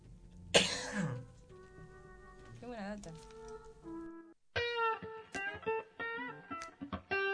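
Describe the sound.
A single harsh cough bursts out near the start. Tonal sounds that carry a throat-clearing rasp follow it, and brief pauses separate them.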